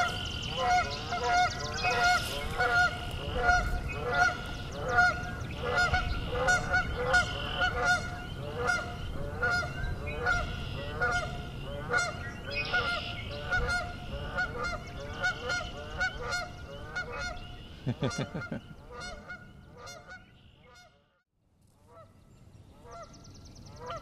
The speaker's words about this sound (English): Speaking of goose, let's look at these two. I think they're unhappy with me.